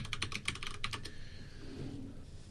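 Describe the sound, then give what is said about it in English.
Typing a password on a computer keyboard: a quick run of many sharp key clicks for about a second, then the tapping stops and only faint background hiss remains. The whole clip is fairly quiet. “It wants my administrator password before it'll let me do that. Oh, and it wants me to type it correctly.”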